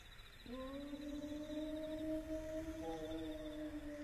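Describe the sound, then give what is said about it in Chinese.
A person imitates a wolf howl with a long, steady, sustained voiced tone that starts abruptly about half a second in and holds at an even pitch to the end. There is no other speech. “这是啥东西在叫？ 狼，是狼嚎。 这地方还有狼？ 要有狼就好喽，这是人学的狼叫。”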